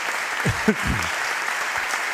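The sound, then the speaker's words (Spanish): Audience applauding the mayor of Pontevedra at a public event: a steady, even patter of clapping with a brief voice rising over it early on. “Podéis aplaudir también, ¿eh? Aquí hay para todos.”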